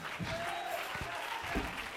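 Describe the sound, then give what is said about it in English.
Congregation clapping hands during a church service, a continuous, even wash of many hands at moderate level, with voices faintly audible through it. “Clap your hands.”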